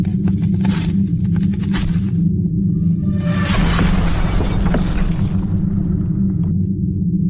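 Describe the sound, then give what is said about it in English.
A segment bumper jingle plays as a continuous low, rumbling roar, with a burst of bright, crash-like shattering noise near the middle, with no voices. “For half a second, I forgot. You forgot. You forgot. That we had a bumper. Oh, oh. shit. Let's bump.”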